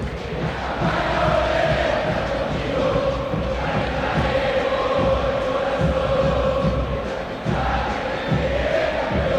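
River Plate supporters roar in the stands of the Monumental stadium as the players come onto the pitch before a match against Vélez, a sustained, loud crowd noise with shouting swelling and easing.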